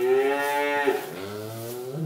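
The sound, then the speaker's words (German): A cow moos beside its calf, a calm, non-aggressive mother: one loud, sustained, deep moo with a rich buzzing tone lasting about two seconds, with no voices. “Ja, es sind aber diese guten Kühe. Ne? Das ist, die kümmern sich ums Kalb, sind nicht aggressiv.”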